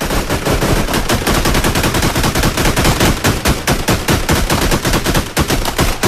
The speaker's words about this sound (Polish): Nie, proszę pana, no to wyraźnie słychać strzały.